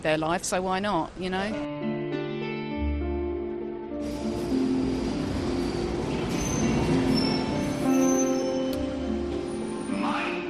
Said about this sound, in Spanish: El sonido del metro de Londres es característico.